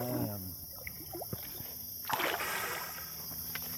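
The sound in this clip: Snorkeler splashing into river water while checking hellbender nest boxes in Missouri; a brief voice at the start, scattered light drips, then a loud burst of splashing midway that settles into softer sloshing.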